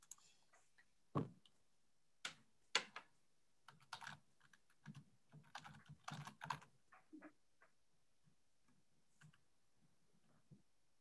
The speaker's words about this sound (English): I will also type